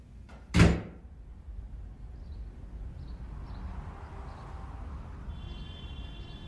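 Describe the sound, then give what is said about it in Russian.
A door shuts with one heavy thud, then a low, steady hum of quiet surroundings continues alone. “Уходит, закрыв дверь.”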